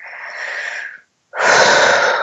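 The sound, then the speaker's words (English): A big, noisy breath during an EFT tapping exercise: one long airy breath, a short silent pause, then a second, louder and fuller rushing breath. “Big, noisy breath.”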